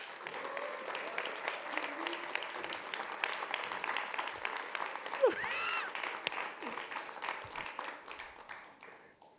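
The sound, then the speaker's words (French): An audience applauds the co-founder of Street Smile at a hip-hop dance conference. The clapping is sustained and crackling at a fairly soft level, then gradually thins and fades toward the end. “Faites du bruit, s'il vous plaît, pour le cofondateur de Street Smile, Monsieur Youssef Tafat.”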